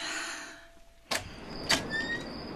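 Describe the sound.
A door being opened in a home as guests arrive: two sharp clunks about half a second apart over a low background hum, with a thin whistling tone after the second clunk.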